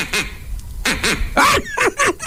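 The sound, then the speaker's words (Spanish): A duck quacks in a quick series of short, nasal, rasping calls, loud and closely spaced, with brief gaps between them. “¿Cómo hizo el pato?”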